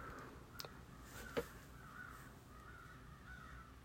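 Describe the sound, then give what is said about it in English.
Crows cawing outside: faint, hoarse caws repeat at intervals over a steady low background hiss, with a couple of brief sharp ticks early on. “can you hear the crows in the background? Those are my crows. I feed them every day. And they're probably outside yelling for food.”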